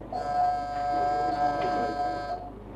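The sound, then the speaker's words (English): A telephone exchange's emergency call alarm horn sounds in one loud, steady blast, holding a single buzzing tone for just over two seconds before it cuts off, with a faint low hum underneath. “For that's the sound of the emergency horn, blasting out its warning that somewhere in the exchange there's an emergency call waiting to be answered.”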